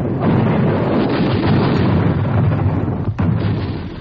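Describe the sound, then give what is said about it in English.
Machine gun fire in a field demonstration for soldiers: a loud, dense, unbroken roar of rapid shots lasting about four seconds, with one brief dip shortly before the end. “One of my employees could operate the gun in action, showing the men in the field just how this machine gun operates in action.”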